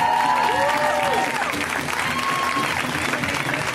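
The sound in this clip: Audience applause greets a comedian at a live LA comedy show, a steady, loud clatter of clapping with a few whooping voices near the start.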